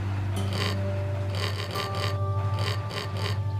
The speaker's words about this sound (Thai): เครื่องเขินตะกอนนี่มันจะมีการขูดลายอย่างเดียว